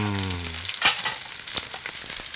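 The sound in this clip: A mackerel fillet fries skin-side down in a pan over medium heat, giving a continuous crackling sizzle with scattered sharp pops. A brief low hum fades out at the start.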